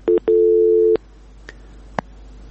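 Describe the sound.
A line tone sounds after a telephone call cuts off: two short beeps, then a longer steady tone, followed by two faint clicks.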